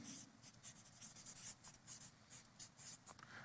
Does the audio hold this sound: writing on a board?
yes